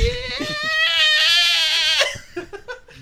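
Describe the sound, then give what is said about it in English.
A person imitates a goat's bleat to answer yes to a question on a golf course: one long, quavering, wavering cry lasting about two seconds, followed by a few brief, fainter sounds. “And then I asked him if I sounded like a goat, and he said, yeah, you do.”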